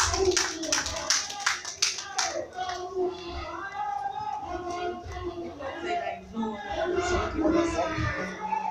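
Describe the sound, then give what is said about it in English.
A group claps for a girl as she comes forward: sharp, uneven hand claps crowd the opening two seconds, then the sound turns into a busier mix with voices talking. “Okay, clap for her. She comes forward.”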